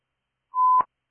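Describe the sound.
A fire dispatch alert tone for Haines City Ladder 3: a single steady mid-pitched beep lasting about a third of a second, cut off by a short crackle.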